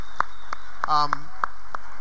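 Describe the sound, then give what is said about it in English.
Clapping for church volunteers, about seven sharp, evenly spaced claps in a slow, steady rhythm, with a brief voice-like tone sounding between the third and fifth claps. “So give yourself a round of applause.”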